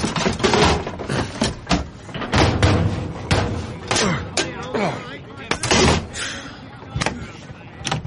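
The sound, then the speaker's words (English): Thuds and slams of a car trunk being opened and suitcases loaded inside, a busy run of many sharp knocks and bangs in irregular rhythm, some heavy and loud, others lighter, continuing throughout. “Now open the trunk and place the cases in.”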